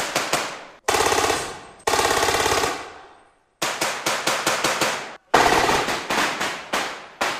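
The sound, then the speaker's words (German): Loud gunfire comes from a demonstration of close-quarters urban combat. Several volleys of rapid shots follow one another with brief pauses between. “Hier wird der dynamische Häuserkampf jetzt vorgeführt. Und das heißt, es wird laut und es wird geschossen.”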